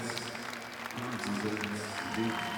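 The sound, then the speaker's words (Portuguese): Audience applause for a band's team at a live concert, a dense steady wash of clapping with crowd noise mixed in, moderately loud and sustained throughout. “Um grande, grande aplauso para toda a equipa.”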